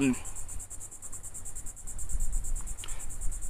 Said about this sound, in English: there's a lot of cicadas in the background